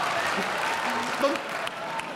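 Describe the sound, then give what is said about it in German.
Applause from a cabaret audience, a soft, steady wash of clapping with a voice briefly heard over it. “Da klatscht der Westfale, das war mir klar.”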